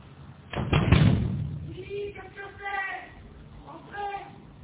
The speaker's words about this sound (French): Aucun effet. Il frappe plus fort.